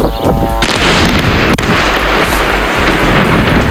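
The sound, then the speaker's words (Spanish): Bombs fall and explode over Lebanon in loud, heavy booming blasts within a continuous rumbling roar, with one sharp crack standing out midway. “Este es el sonido de las bombas que caen sobre el Líbano, lanzadas por Israel.”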